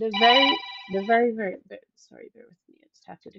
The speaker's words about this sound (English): that was my phone, I do apologize.